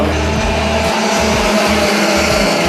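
Go-kart engines roar during a national karting championship race in a junior class for young drivers. The loud, continuous, high buzzing drone has a pulsing low rumble underneath, with no talk.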